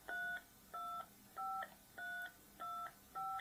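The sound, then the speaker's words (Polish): DTMF telephone tones dial the Echolink node number of the OK0X repeater: six faint, even beeps of equal length at a steady rhythm, with nothing else heard. “Tak więc do przemiennika OK0X spróbujmy się podłączyć, wybierając jego not number, czyli 325 325.”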